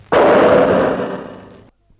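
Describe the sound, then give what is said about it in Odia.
A single loud revolver gunshot: a sharp, blasting report followed by a long rumbling tail that fades over more than a second before cutting to silence. “ଗୁଳି ଚାଲି ଯାଇପାରେ।”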